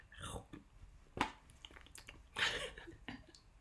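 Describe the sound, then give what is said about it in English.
Quiet crunching as a bite of crunchy Hey Tiger chocolate is slowly and delicately chewed, with a few separate crisp crackling bursts between soft, faint mouth sounds. “I just took a bite of Hey Tiger chocolate with my headphones on, and I've been like so slowly and delicately trying to crunch it because it's really crunchy”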